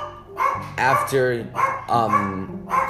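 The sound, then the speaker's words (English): A pet dog barks repeatedly with sharp, loud, yipping barks in a quick, uneven series, with short gaps between bursts. “that's my dog barking again.”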